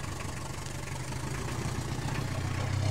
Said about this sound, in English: the driver lit a cigarette and spun the taxi around the street